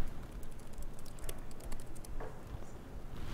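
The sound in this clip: Fingers type on a laptop keyboard in a steady, fast patter of light clicks over a constant background hiss.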